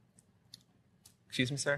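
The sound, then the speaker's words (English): A presentation clicker is pressed three times, giving faint, sharp clicks spaced about half a second apart, before a voice begins talking. “the clicker's not working. There we go.”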